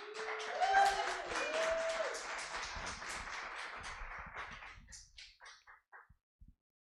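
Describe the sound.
Applause from a church audience at Element Church welcoming a pastor: dense, steady clapping that thins after about five seconds into a few scattered final claps.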